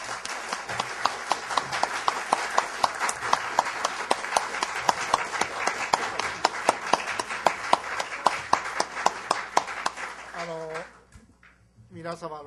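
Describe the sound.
Applause from a session audience: dense, steady clapping of many hands for about ten seconds, then fading out as a voice starts to talk.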